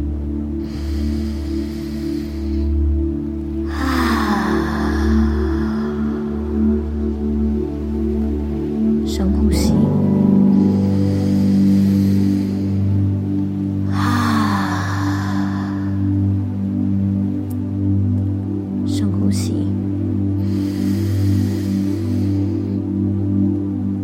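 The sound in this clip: Slow, deep breaths taken during a guided meditation, a few soft airy swells rising and fading over a steady low sustained drone.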